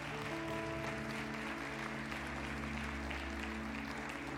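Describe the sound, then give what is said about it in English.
Church audience applause for a mother bringing her babies up for dedication, a steady, quiet wash of clapping over sustained held musical tones. “Everybody give them a hand as they come right now.”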